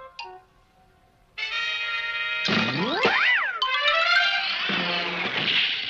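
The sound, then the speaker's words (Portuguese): Cartoon sound effect of a bowling ball rolling: after a brief quiet start, loud sustained harmonic tones with a bouncy, boing-like pitch that sweeps up and down, continuing steadily to the end. “Fomos seguidos por uma bola de boliche. É? É realmente uma bola de boliche.”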